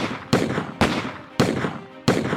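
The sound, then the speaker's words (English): Gunfire from two six-shooter revolvers emptied in quick succession: four sharp, loud bangs at an uneven, rapid rhythm, each followed by a short ringing decay. No voices are heard. “One shot after another in quick succession emptied both six guns.”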